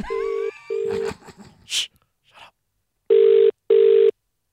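Telephone tones as a call is placed to a parent: four steady mid-pitched tone bursts in two pairs, separated by a few faint clicks and rustles, with no talking.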